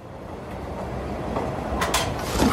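Rolling rumble of a Madrid metro train running, a steady rattling drone that swells slightly, with a few sharp metallic clicks near the end.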